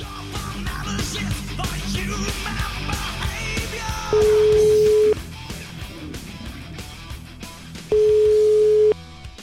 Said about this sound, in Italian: Io proverei a fare una telefonatina a questo signore